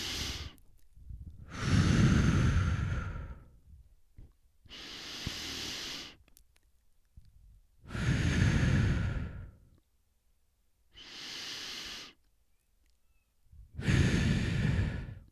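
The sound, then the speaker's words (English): Deep breathing as a calming exercise: slow, long, airy inhalations and exhalations follow one another at a steady, unhurried pace, with clear silences between them and no talking. “So what I do is I just start taking deep breaths and I look at my watch”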